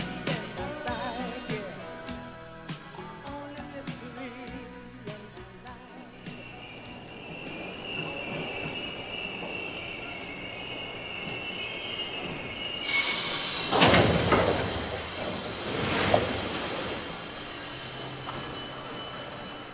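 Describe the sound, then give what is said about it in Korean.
A subway train arrives at its destination, with loud, high metallic wheel squeal above a rumbling rail roar and a few sharp screeching bursts near the end. Music plays during the opening seconds before the train noise takes over. “음악이 시작할 때 떠나던 지하철이 목적지에 도착했나 봐요.”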